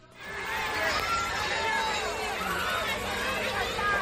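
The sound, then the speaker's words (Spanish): A dense crowd fills the street for the Three Kings parade in Almería, a steady wash of many overlapping voices and festive hubbub that holds constant throughout. “Ya les hemos visto desfilar entre una multitud en Almería.”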